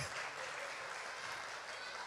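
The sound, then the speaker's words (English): Applause from a church audience, a steady, continuous wash of clapping that holds at an even level throughout, with no voices over it. “Let's recognize him and give him a hand. Praise him, man.”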